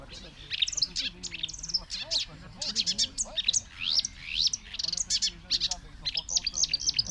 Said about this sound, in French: Ce son qu'on entend, un babil très sophistiqué comme ça, très jubilatoire, c'est la rousserolle verderolle.